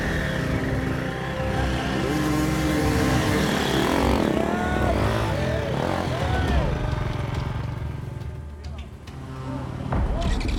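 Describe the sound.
A motorcycle engine revs unevenly, surging and dropping, as riders wrestle the bike through woods during a race. A man talks over the engine throughout.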